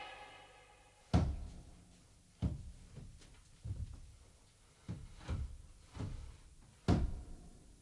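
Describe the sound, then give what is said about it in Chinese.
The main gate of a magistrate's court is opened with a series of dull, heavy wooden thuds and knocks, irregularly spaced over several seconds and fairly faint. “打开大门。”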